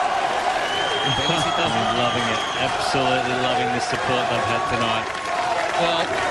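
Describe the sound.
A crowd cheers and applauds for Colombian doubles players at a tennis match, a steady loud roar of claps and shouts running throughout while a man talks over it.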